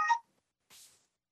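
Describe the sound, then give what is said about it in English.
A phone gives a short electronic tone, a single bright harmonic beep, then a brief soft hiss after a pause. “nothing like the phone at the last minute, sorry.”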